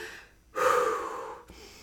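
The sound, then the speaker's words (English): A person takes one big, audible breath to show a deliberate calming breath like those used in Pilates: a sudden airy rush after a short quiet stretch that stays loud, then fades over about a second. “I remember taking big breaths out loud, like”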